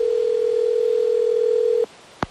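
A telephone dial tone sounds after digits are dialed on a phone: a steady, unbroken mid-pitched hum for nearly two seconds that cuts off abruptly, followed by a short sharp click.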